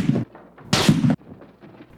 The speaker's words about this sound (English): Shots are fired.